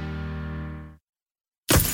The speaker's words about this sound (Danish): Ah, et steneslag! Det skal du få fikset. For en skadet rude revner lidt, når det er koldt.